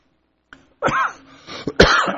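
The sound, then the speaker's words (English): A few harsh, throaty coughs in quick succession: a small lead-in burst, a rough voiced cough, then a short hack and a final broad, forceful cough, loud and on their own. “Now, that actually makes me cough.”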